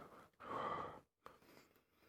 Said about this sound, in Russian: Для того, чтобы наше дыхание тренировалось все больше и больше, мы используем для этого воздушный шар. Выдыхаем и опять попробуем